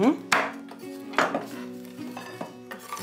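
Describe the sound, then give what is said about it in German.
Cold, hardened caramel brittle being chopped, giving a few sharp, crackling knife strikes spaced irregularly, with brittle shards clattering between them. “Auch der mittlerweile kalte Karamellkrokant wird zerhackt.”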